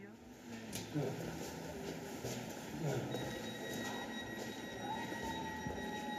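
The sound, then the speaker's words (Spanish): A Berlin S-Bahn commuter train runs along the rails with a steady rumbling clatter and a brief wheel squeal near the end. “Este tren solo llega hasta Tempelhof.”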